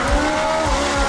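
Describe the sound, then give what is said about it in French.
Ferrari sports car engine giving a steady, high, buzzing whine with a few low throbbing pulses underneath, loud and alone for about a second. “normalement, une Ferrari, vous savez, Mathieu. Vous le savez, ça sonne comme ça.”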